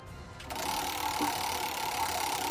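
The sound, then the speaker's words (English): A prize wheel spins with a steady, rapid mechanical clicking and whir. The sound is fairly faint, begins after a brief quiet moment and carries on evenly to the end. “Spin that wheel”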